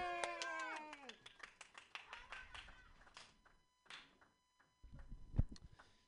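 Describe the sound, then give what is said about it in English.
Audience clapping for a comedian at an open mic comedy show, a voice calling out at first, then scattered claps that fade into gaps before a final brief burst. “Put your hands together, everybody. It's Sam Carroll. Yay!”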